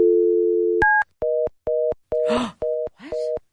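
A telephone's steady dial tone hums while someone dials an international number, then a single higher keypad tone sounds. A run of about six evenly spaced, loud on-off beeps follows, like a busy signal.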